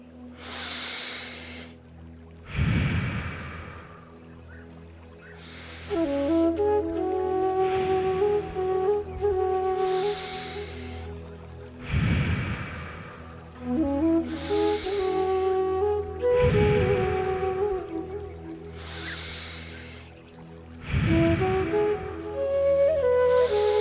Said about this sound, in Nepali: अब हामी श्वास लिँदै आफ्नो श्वासलाई मनमनै गन्दै जान्छौँ श्वास लिँदै छोड्दै गरौँ